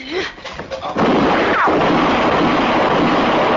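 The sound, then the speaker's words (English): A gunshot in a radio Western drama bursts in after brief moments of talk and leaves a loud, sustained wash of rumbling noise. “Oh. You shot him. You shot my boy.”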